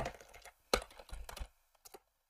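Typing on a computer keyboard: quick bursts of clicking keystrokes, a short pause, then a couple more taps, with no voices.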